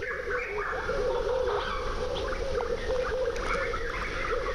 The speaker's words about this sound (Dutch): Wat zou dit eigenlijk allemaal zijn? Ik denk eh, meerdere soorten kikkers. Kikkers en vogels, denk ik vooral. Ik denk het uitsluitend eh, vogels.